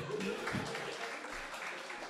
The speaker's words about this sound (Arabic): زيدوا على اليوتيوب كاملين صفقوا على راسكم.